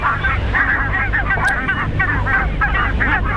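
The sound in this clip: Goose honking in a rapid, continuous series of many nasal, harmonic calls over a steady low rumble, loud throughout with no clear pauses between calls.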